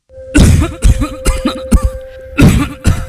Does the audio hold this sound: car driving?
no